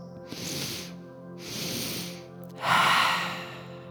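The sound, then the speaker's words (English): A physiological sigh: two breathy inhales through the nose, then a longer, louder exhale through the mouth, all soft and unvoiced with short pauses between. “The physiological sigh sounds like this.”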